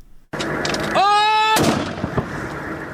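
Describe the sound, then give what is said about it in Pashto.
Artillery cannon fire during fighting near Lashkar Gah, Afghanistan: a sudden loud boom opens into a sustained heavy rumble, broken by a brief harmonic whistle and a sharp blast partway through. “سنگر تود دی دمځکه لخوا هوانونه ڈی سی توپونه او د هوا څخه جنگی هلیکوپټر هغه وسلوال په نشه کوي”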